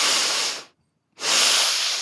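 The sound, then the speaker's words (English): Breathing exercise for anxiety: a long breath in, a silent hold, then another long breath out, each a soft, airy hiss, with no voice over it. “a double breath in and a hold and a double breath out.”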